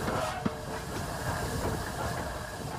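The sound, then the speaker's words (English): A large three-cylinder steam locomotive of about 96 tonnes, its boiler working at up to 220 psi and held to 25 mph here, gives a steady hissing, rumbling chuff with one faint click near the start. “It's a large locomotive. It's a three-cylinder engine, 96 tonnes or so. Boiler pressure working up to 220 pounds per square inch. So it's quite a big beast.”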